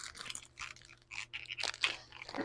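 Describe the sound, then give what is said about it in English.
Makeup packaging from Ulta crinkles as someone struggles to open it, giving irregular bursts of crisp, crackling plastic noise, fairly faint and heard without talk. “I'm trying to get some nice ASMR, but I can't get it out of the package. That's all you hear is.”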